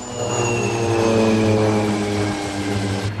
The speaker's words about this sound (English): The plane banks sharply to the right.